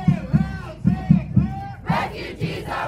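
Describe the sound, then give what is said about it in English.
A crowd chants at a refugee rights rally in Nashville. Many voices shout a short slogan in a steady, repeated rhythm, loud and forceful, with a few strong beats per phrase. “This is a rally in Nashville organized by the Tennessee Immigrant and Refugee Rights Coalition earlier this spring. I brought my teenage immigrant along, as well as my mom, and three generations of transplanted Tennesseans chanted along”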